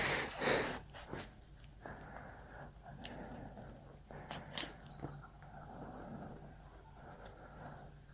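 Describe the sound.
A dog sniffs: faint, quick breathy snuffles and short nasal bursts, irregular and close together.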